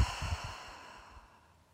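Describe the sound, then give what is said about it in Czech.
A soft, airy breath is exhaled through the mouth during a guided meditation breathing exercise. It begins with a few faint, low puffs, then thins into a quiet hiss that fades out in under two seconds. “Otevřeme ústa a výdech pusou.”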